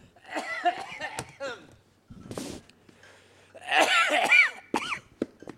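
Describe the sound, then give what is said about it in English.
Coughing and throat clearing from a man with something caught at the back of his throat: a few rough, breathy bursts and throaty rasps, each fairly loud and short, separated by brief pauses. “I've got something caught at the back of my throat. I'm going to have to stop talking.”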